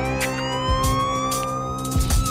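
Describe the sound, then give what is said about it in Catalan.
A police siren wails with a loud, continuous tone that rises slowly in pitch. A few low thuds sound beneath it, and there is no talking. “Però estic a dins amb aquesta sirena.”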